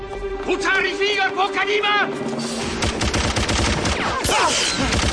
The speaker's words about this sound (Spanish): Disparan contra Stefan, que desaparece tras una esquina. Los sicarios asoman por la esquina y vacían los cartuchos.